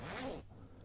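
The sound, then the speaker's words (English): A long zipper on a cardigan pulled in one quick, continuous stroke. The rasp is loudest through the first half, then trails off into a quieter tail. “I must be a giant, because that's one heck of a zip. That's a long zip.”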